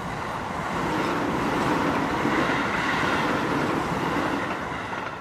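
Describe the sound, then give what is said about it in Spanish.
Steady rolling rumble of a train as it pulls out, broad and fairly loud, swelling slightly over the first second and then holding even with faint rhythmic rail clatter underneath; no voices. “Así que vamos ya, que sale el tren y nos vemos en nada.”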